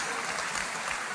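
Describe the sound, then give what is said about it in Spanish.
Women in an audience applaud, a steady, even wash of clapping that holds at one level for just over a second without breaks. “Y la, sí, las mujeres están aplaudiendo ahorita, ¿ok?”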